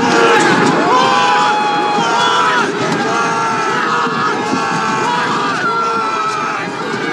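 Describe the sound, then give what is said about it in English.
A large, loud crowd of rioters outside the U.S. Capitol building, with many overlapping voices yelling, shouting and cheering in a continuous roar that barely eases from start to finish. “A year ago, this was the sound outside the U.S. Capitol building.”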